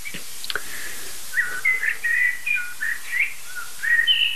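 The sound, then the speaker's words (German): Blackbirds singing in a series of fluting, whistled phrases that start after a couple of brief clicks and continue in a steady run of warbling notes, moderately loud and without talk. “Also das sind jetzt gerade Singamseln. Aber im Hintergrund sollte gleich Singdrossel schimpfen.”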